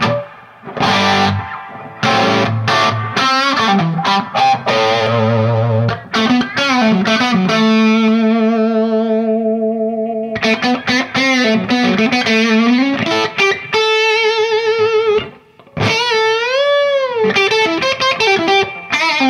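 Electric guitar played through distortion effects, heard alone with thick chords and long sustained notes that waver at the end, loud and continuous apart from a brief break late on.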